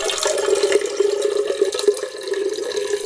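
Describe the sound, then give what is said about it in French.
Water pours into a watering can filled at a fountain, a steady splashing stream with a sustained ringing tone from the filling vessel, continuing alone for about three seconds with no voices. “Vous aviez le bruit de l'eau qui coule dans l'arrosoir.”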